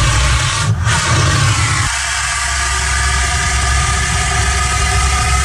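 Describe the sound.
Powder fire extinguisher emptied onto a single can of beer, giving a loud, steady rushing hiss that fills the whole clip without a break; the low rumble underneath shifts slightly about two seconds in.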